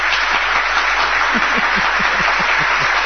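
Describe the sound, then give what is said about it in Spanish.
Applause as a steady wash of dense clapping, loud and even throughout, with no voices. “Se merece un aplauso también. Se merece un aplauso también.”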